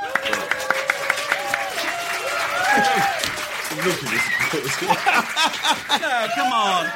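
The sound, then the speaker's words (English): Audience applause at a live show recording: a dense patter of many clapping hands that runs the whole time, with voices talking over it. “You don't get any applause normally. Good. This is so exciting, isn't it? We never normally have applause.”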